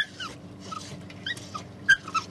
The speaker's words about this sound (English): He's got company, a tawny mongrel pup struggling to swim after the boat.